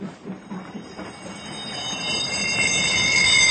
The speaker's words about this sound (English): Listen, the sound effect. And when did you last see the train? Up on platform 7.